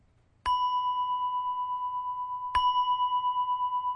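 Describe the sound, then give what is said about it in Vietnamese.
Two strikes of a Buddhist temple bell rung for sutra chanting. Each strike gives a bright, clear ring that sustains steadily without fading, and the second comes about two seconds after the first. “Để đó là vì đó là bởi vì cái chuông đó là tiếng chuông của nghi lễ. Thí dụ vậy. À, chuông tụng kinh nè.”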